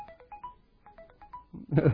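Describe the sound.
A phone ringtone plays short, repeating electronic melodic notes in two similar phrases, followed by a brief, louder burst of noise at the end.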